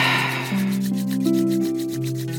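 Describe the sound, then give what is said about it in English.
Palms rubbed briskly together to build heat, giving a rapid, even swishing friction of many quick strokes over a soft, sustained tone. “Let's go ahead and rub our hands together, creating lots of heat in those palms again.”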